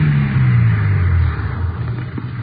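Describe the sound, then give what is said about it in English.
Car engine rumbling as the vehicle pulls up and stops on a dirt road, the low drone sinking in pitch and easing off partway through, then settling into a quieter, rougher idle. “Dorothy Tyler directed us to turn off onto a dirt road. We drove about 2 miles. She told us to pull up.”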